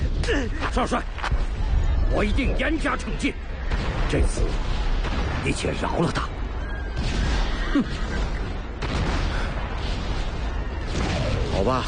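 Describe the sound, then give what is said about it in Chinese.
Booming artillery cannon fire in a battle scene of an audio drama, French cannons pounding defenders. It forms a dense, continuous roar of blasts and rumble that runs throughout, with shouting voices mixed in. “炮火连天，驻守护卫的梁敖、刘胜银等人损失惨重。梁大人，梁大人，法国佬的大炮太厉害了”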